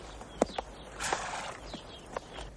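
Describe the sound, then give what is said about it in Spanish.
A horse walks as it is led to a stable, its hooves giving a few soft, irregular clops over a faint, noisy background. “mientras lleva el caballo al establo.”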